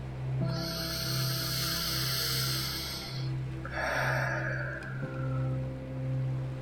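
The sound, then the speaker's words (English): A deep breath during an anxiety and stress relief exercise, drawn in through the nose as a long, airy hiss, then let out through the mouth in a shorter, softer rush, over a steady low drone. “And I want you to take one more deep breath in through your nose and out through your mouth.”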